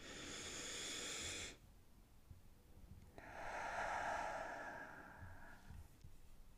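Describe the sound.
A deep, mindful breath: two long, airy rushes of breath, each lasting over a second, separated by a short quiet gap. The second rush is longer and fuller, and both are heard alone without talk.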